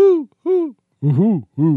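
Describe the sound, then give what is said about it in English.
Owl hoots from a male and female owl calling back and forth: four round, resonant hoots, two higher-pitched followed by two deeper ones, each arching up and down in pitch, with short silent gaps between them. “is a male and female owl talking, it becomes comedic real quick.”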